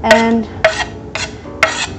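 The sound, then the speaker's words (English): Chopped onion being put into a pan, with four bright metallic clinks and scrapes of a utensil against the pan, spaced roughly evenly apart. “now while I'm talking, I'm just putting the onions in a pan, the chopped onion in a pan, right?”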